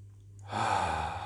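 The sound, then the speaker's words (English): A slow, extended exhale through the mouth begins after a brief quiet moment, a soft breathy rush that swells and then sustains gently to the end. “You breathe in through your nose, and you exhale through your mouth. Yes. And you try to extend your exhale. So you make it slower and slower.”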